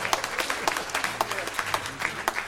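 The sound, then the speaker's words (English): Church audience applauding to praise the youth leading a service: many quick, crisp handclaps running steadily through the whole moment at a moderate level, with no talk over them. “Let's give them a hand clap of praise.”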